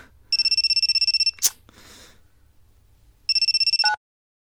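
An electronic phone ringtone from a persistent incoming call, two bursts of rapid, high-pitched pulsing beeps separated by a brief noise and a pause, the second burst cut off abruptly.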